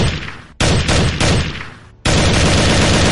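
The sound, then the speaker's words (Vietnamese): Dense, continuous gunfire from boats on the water, a loud roaring barrage of overlapping shots broken by two brief gaps. “Thoáng chốc tiếng súng vang lên liên tiếp.”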